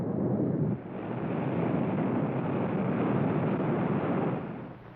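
A rocket blast-off sound effect from a radio drama: a heavy, sustained rumbling roar that dips briefly near the start, then surges and holds steady before tapering off at the end, with no voices.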